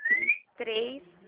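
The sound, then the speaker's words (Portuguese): A bird gives one clear, high whistled note that rises slightly and lasts under half a second, then a voice speaks. “É que tem um pássaro, né?”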